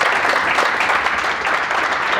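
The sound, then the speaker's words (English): Audience applause welcomes a guest onto a show: dense, even clapping fills the whole stretch at a steady, fairly loud level without any break. “So just give me a hand to welcome Sean.”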